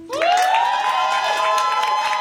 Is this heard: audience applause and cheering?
yes